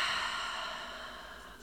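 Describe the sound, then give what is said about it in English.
A single long, deep breath during a guided breathing exercise, heard as a steady, airy hiss that fades gradually over its length, with no talk. “Another deep breath in through the nose and out through the mouth.”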